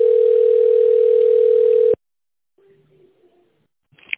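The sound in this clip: A single steady telephone tone sounds while a call connects to an operator, holding an even mid pitch for about two seconds before cutting off abruptly. Near silence follows, with faint low sounds and a brief click at the end.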